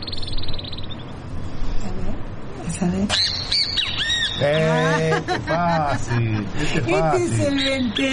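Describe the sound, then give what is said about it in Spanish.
A great kiskadee calls with loud, harsh, nasal squawks repeated in quick, uneven bursts, each call sliding in pitch, over a noisy background. “Por ejemplo, vamos a continuar con el venteveo, a ver qué tal.”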